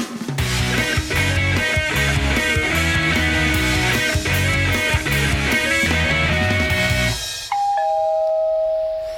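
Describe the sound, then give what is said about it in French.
A doorbell rings near the end as a sustained chime that steps from one tone down to a lower one. Before it comes a loud, dense stretch of sound. “on a sonné.”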